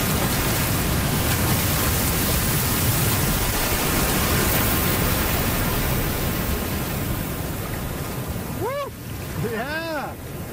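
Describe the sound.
An ocean wave rolls in while surfing, a loud, steady rushing wash of surf that fills the whole stretch with broad hissing roar and only slight shifts in intensity.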